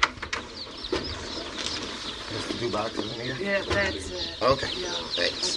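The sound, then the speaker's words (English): Many newly hatched chicks, two days old, peep inside large flat shipping boxes at a post office, a dense, overlapping chorus of high chirps that continues steadily throughout. “The postmistress hands him two large, flat, noisy boxes, 200 chicks hatched in New Mexico the day before yesterday.”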